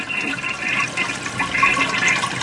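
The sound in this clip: A toilet flushes amid an overflowing, clogged-toilet mess: a steady rush of swirling water, loud and continuous for about two seconds, with no voices.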